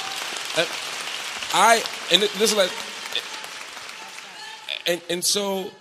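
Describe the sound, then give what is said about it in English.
Audience applause at a public talk, a crackling patter of many hands running throughout while a speaker keeps talking over it in bursts. “I know the applause.”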